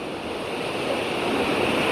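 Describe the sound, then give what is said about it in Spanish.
Rushing water and wind form a steady, dense hiss and roar that grows slightly louder over two seconds, with no voices. “Oyó cómo cantaban el agua y el viento.”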